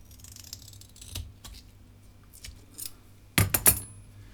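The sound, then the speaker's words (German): Two neodymium magnets are fixed to a tin can with a strip of adhesive tape. Faint scattered handling taps lead into three sharp, loud metallic clicks and rattles near the end. “Wir befestigen 2 Neodym-Magnete an der Dose und das machen wir mit einem Streifen Klebeband.”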